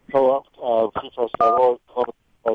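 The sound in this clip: Mobile phone ringtone sounding as a series of short electronic tone bursts of varying pitch, some brief and some held longer, clear and fairly loud with gaps between them.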